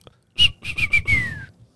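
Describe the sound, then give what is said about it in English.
A voice imitates a referee's end-of-game whistle with a short sharp toot, then a few quick blasts and a longer shrill tone that slides down in pitch, alone without talk. “That's usually how it goes. That's end of game. Yeah. That's the end of game whistle.”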